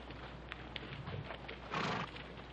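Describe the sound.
A calico horse being saddled and ridden: faint scattered clip-clop clicks, then a short, breathy, noisy burst like a snort near the end, all at low volume.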